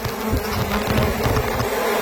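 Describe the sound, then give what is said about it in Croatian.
Bees buzzing in a full hive on Mali Lošinj: a dense, continuous drone of many insects, fairly loud and steady, with no pauses. “Ovo je uživo sa Malog Lošinja i ne šalim se, dobili smo video puna košnica pčela.”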